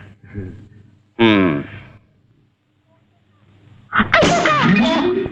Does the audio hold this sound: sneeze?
yes